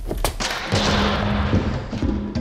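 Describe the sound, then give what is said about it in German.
A door being kicked in: a sharp heavy thud at the start, then a dense, loud rushing crash that holds steady, broken by a few more dull thumps near the end. “Treten Sie die Tür an”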